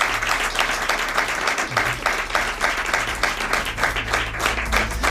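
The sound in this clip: Sustained applause from a crowd, a dense, steady wash of clapping at an even level from start to finish with no pauses.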